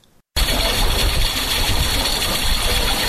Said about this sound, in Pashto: دا غږ د اوبو څاڅکي سیستم دی چې د انرژي یا اوبو د ضایعاتو د مخنیوي لپاره یو مرجنه چاره بلل کیږي